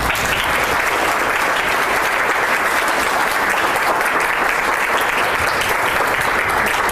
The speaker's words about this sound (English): Ladies and gentlemen, please give a warm welcome to Barry Newsom.